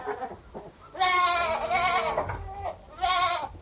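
Goats bleating near a bunker, two of them grazing in front of it: a few loud, wavering, nasal bleats, a long drawn-out cry followed after a pause by a shorter one, over faint background noise.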